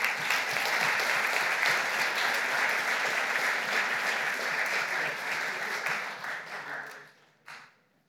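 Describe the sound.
An audience applauds to welcome a pastor. The clapping stays full and steady for about six seconds, then fades out, with one last brief burst near the end.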